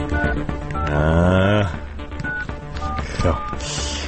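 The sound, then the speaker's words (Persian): A reporter's telephone number being dialed, several brief touch-tone beeps spaced irregularly over a busy, tonal background sound. “بذار من شماره این خبرنگاره رو بگیرم”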